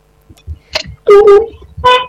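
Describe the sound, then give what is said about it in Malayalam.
Car horns honking in traffic around a moving vehicle, a few loud, bright, nasal blasts of varying length over faint road rumble, including one short toot and two longer honks. “എല്ലാ ഹോണടിയും കേൾക്കുന്നുണ്ട് ഞാൻ.”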